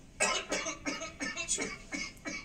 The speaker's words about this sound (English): he takes a sip and immediately starts coughing